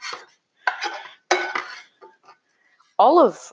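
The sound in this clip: A utensil scrapes butter out of a pan while Johnny cakes are cooking, a short rasping scrape near the end that follows a few brief bursts of kitchen clatter.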